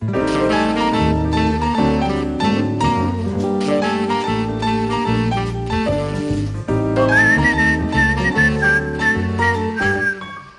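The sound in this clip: A whistled melody rides over full instrumental music, a clear high tune that wavers and sustains through the second half against steady, loud accompaniment.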